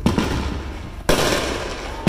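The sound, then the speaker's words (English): Illegal fireworks going off in residential backyards: a few sharp bangs about a second apart, each followed by dense crackling and sizzling that carries on between the blasts. “This is the scene that the city of Oceanside is hoping to stop. Illegal fireworks lighting up in people's backyards and causing a nuisance.”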